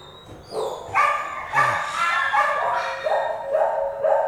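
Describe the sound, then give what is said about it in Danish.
Many dogs bark and yelp in a kennel basement, a dense overlapping chorus of high, harmonic yips and barks that keeps going without a break. “De har det ikke nice, de hunde der.”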